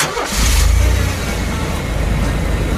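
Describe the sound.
A car engine starts during a driving lesson and settles into a loud, steady, low rumble with broad roaring noise that continues to the end.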